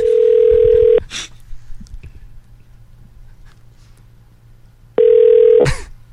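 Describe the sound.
A ringback tone sounds on an outgoing call: two long, steady, loud tones of about a second each, separated by a silent pause of roughly four seconds, with faint background noise between them.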